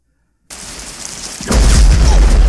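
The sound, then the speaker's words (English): A grenade explosion: after a steady rush of noise, a loud, broad blast hits and keeps rumbling, heavy in the low end, until the end. “Oh, yeah. Oh, that's the grenade. Yep, that's a grenade.”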